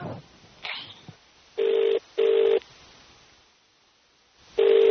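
A telephone ringing tone heard down the line during a call: a steady electronic tone in paired pulses, two short bursts, a long pause, then the next pair beginning.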